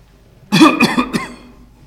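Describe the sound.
Someone coughs and clears their throat, producing a few harsh, loud bursts in close succession that trail off into a rough, fading rasp.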